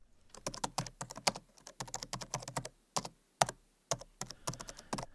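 Rapid typing on a computer keyboard, with many crisp key clicks in quick bursts separated by short pauses and no talk over them.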